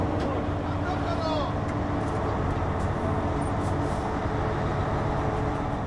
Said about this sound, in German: Schmeißen wir das Gerät mal an. Der erste Funktionstest.